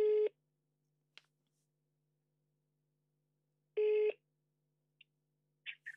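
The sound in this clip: A telephone call's ringing tone: two short buzzing tonal bursts a few seconds apart, each under half a second, with a few faint brief blips between and after them over a quiet low hum.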